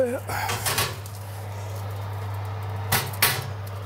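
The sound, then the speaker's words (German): Clatter of a baking dish of flan being put into an oven heated to 180 degrees, with a few knocks of dish and oven door. A steady low hum runs underneath while people talk. “So, jetzt geben wir es gerade in den Ofen. Wie gesagt, 180 Grad. Das ist heiß.”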